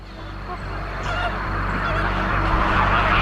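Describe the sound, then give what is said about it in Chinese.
Caribbean flamingos call in a dense flock before breeding, many overlapping goose-like honks over a constant rough wash of noise. The chorus grows slightly louder toward the end. “加勒比海红鹳已经吃饱喝足”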